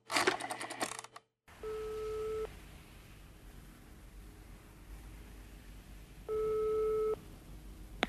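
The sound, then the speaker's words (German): A telephone rings in two separate electronic buzzing bursts, each under a second and several seconds apart, over a low steady hiss after a brief noisy passage at the start. “Denn jetzt schon wieder das Telefon.”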